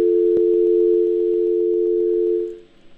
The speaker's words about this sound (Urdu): ان کی line drop ہو گئی